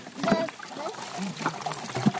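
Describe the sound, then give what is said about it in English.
Apple cider pours out of the bottom of a wooden cider press, making a soft, uneven trickling and splashing, with voices talking alongside. “there's the cider pouring out the bottom.”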